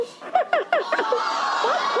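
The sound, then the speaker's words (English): A Tickle Me Elmo toy laughs in a rapid string of high, chirpy, voice-like giggles that run together into a continuing cackle. “And then you look, he shakes, he laughs. See, he's shaking. It's called Tickle Me Elmo.”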